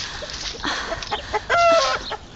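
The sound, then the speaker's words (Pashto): Chickens cluck in a yard: a loud run of busy, overlapping clucks and squawks that ends with a drawn-out, higher call. “چرګو ستړی مو کړم، نور مې مغزه مه خورئ. ورځئ هلته، لرې مې دانه درته اچولې، هغه وخورئ.”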